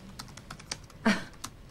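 Typing on a laptop keyboard: a handful of soft key taps in an uneven rhythm, with one noticeably louder press in the middle, heard alone without talk.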